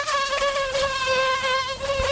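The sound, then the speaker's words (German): Mosquitoes buzz in a continuous high-pitched whine with a rich, slightly wavering harmonic tone. The sound holds steady and fairly loud for about two seconds, with no voices. “Mücken, echte Plagegeister. Die sind wieder unterwegs und nerven uns gern”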